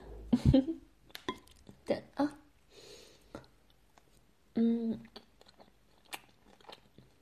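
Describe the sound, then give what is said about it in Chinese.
Chewing and biting as someone eats a meal: a few crisp, crunchy bites in uneven bursts, with a voice speaking briefly partway through. “来，多吃点。”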